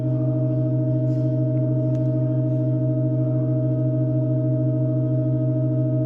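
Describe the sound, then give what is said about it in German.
Pipe organ from an extremely slow organ piece, its keys held down by small weights, recorded in 2023: a steady, unchanging drone of several layered sustained pitches that fills the whole clip without pause. “Da sind so kleine Gewichte, die die Tasten runtergedrückt halten. Und für jeden weiteren Teil des Stücks werden entweder Orgelpfeifen hinzugefügt oder entfernt.”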